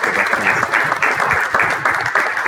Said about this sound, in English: Let's give another round of applause for our